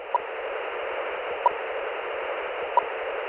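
A radio telemetry receiver picks up a lynx's radio collar in Colorado's San Juan Range: steady, even static hiss broken by three faint, regular pings about 1.3 seconds apart, with no voices.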